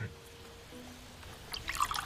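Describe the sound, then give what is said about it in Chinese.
Water is poured into a glass, a faint, brief trickle near the end that follows a low, quiet voice. “您看，您坐下，我给你倒水。”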